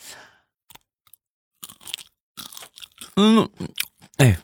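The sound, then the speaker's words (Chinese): Crunchy biting and chewing of duck collarbone cartilage: a few scattered soft bites at first, then denser, louder crunches building toward the end. “哎呀，先给你们吃一口尝一尝吧啊。”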